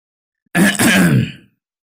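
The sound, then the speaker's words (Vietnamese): A man clears his throat in one short, rough, rasping burst that fades away, heard alone with no talk. “thì đột nhiên một tiếng hắng giọng vang lên.”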